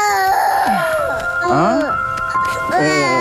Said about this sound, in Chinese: 看看看看， 这孩子是不是有啥毛病啊？这咋哭起来没毛病啊？